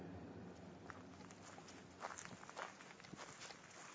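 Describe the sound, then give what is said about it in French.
Footsteps walk along a forest path in the Rambouillet forest in winter, a steady series of soft, crunchy steps over a low, constant background hiss, with no talking. “Me voilà donc en train de marcher dans la forêt de Rambouillet”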